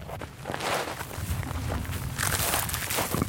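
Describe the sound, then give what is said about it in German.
Footsteps march over thorny scrub up a hill toward the Gaza border fence, a continuous rough crunching and rustling of boots through dry brush at a steady pace. “muss man erst einmal marschieren. Es geht über dorniges Gestrüpp auf einen Hügel.”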